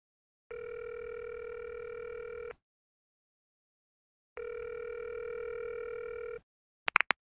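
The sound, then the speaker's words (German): Telephone ringback tones as a call is placed to an estate agent: two long, steady electronic tones separated by a pause, followed by a brief click. “Nun ruft sie den Makler an.”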